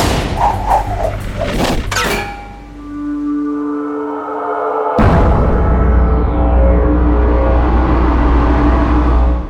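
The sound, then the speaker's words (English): Deck-mounted grappling guns fire upward toward high support beams in one sudden, loud blast, followed by a sustained roaring rumble with a thin whooshing tone. Earlier, a tonal drone and clattering bursts lead up to the shot. “Gregor and Robertson, who were stationed behind the deck-mounted grappling guns aimed upward at the high support beams of Iron Gate. You and I have unfinished business, bitch. Fire!”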